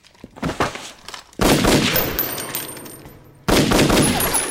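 Gunfire aimed at someone: a few sharp cracks come first, then two loud, dense bursts of firing that each start abruptly and ring on before fading.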